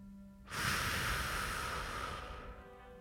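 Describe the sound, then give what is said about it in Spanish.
A deep breath in and out during a guided relaxation exercise: one long, loud, breathy rush of air that swells, holds and then fades, with no talk. “Adelante, inspira profundamente. Y exhala.”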